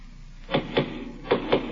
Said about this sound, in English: Somebody's at the door